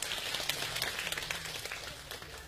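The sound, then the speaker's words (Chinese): Faint audience applause at a live comedy stage show, a soft, steady patter of many hands with scattered sharper claps running through the whole moment, no voices. “谢谢大家的掌声， 感谢大家，谢谢吧，谢谢。”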